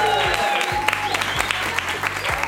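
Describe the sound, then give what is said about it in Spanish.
Applause as an audience welcomes a production assistant: brisk, dense clapping with distinct individual claps, sustained at a fairly even level throughout. “Por favor, recibámoslo con aplauso.”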